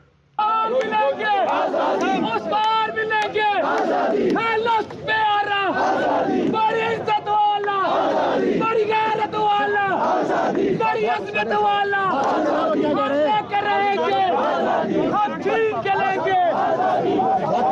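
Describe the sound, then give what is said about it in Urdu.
Lawyers on a march, stopped by police near Chanari, chanting slogans against the police: many loud voices shouting together in repeated rhythmic bursts, continuous throughout. “وکلاء کی طرف سے police کے خلاف مزاحمت بھی کی گئی اور نعرے لگائے گئے۔”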